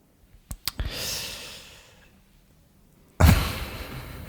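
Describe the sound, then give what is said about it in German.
An envelope being opened: a few sharp clicks, then a soft papery rasp that fades, a quiet pause, and a sudden louder burst of rustling or tearing paper. “jetzt öffne ich den Umschlag”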